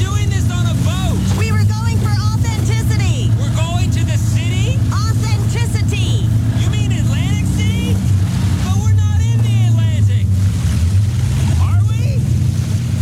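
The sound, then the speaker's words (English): A boat out on the water gives a low, steady engine rumble with a wash of wind and water noise, running continuously beneath people talking. “We're recording this progressive commercial on a real boat to let people know that when you bundle your home, boat, and other vehicles... What was that, boat?”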